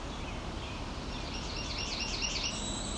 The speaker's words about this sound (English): it doesn't sound spot on for Northern Perula, but it does sound close to a cerulean warbler